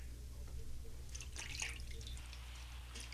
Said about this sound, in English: He is washing my feet like a common servant.